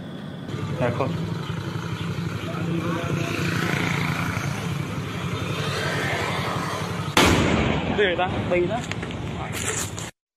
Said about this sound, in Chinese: 你見到一個爆炸發生嘅，咁嗱，嗰爆炸咧，嗱，大家可能頭先睇唔真，其實個炸彈咧喺馬路邊，喺行路度嘅